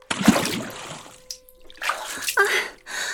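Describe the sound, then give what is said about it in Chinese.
Water splashes as a person is dragged into it, with a few loud bursts of sloshing and splattering separated by brief quiet gaps. “爷，你不愿说就不愿意说呗，居然把我拖到水里，我的衣服都湿了，您看完全贴在我身上了。”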